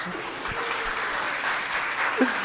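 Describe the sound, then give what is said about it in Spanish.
Audience applause breaks out at a talk, a dense, steady wash of many hands clapping that holds at an even, fairly loud level for the whole clip with no clear voices on top. “sí, por favor, un aplauso”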